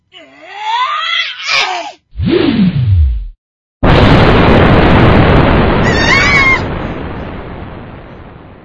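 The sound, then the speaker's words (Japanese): An explosion blast in a monster battle bursts in as a loud roaring rush of noise that slowly fades. It follows shrill cries and a falling whoosh. “ここだと。爆風がまるでそよ風のよう。”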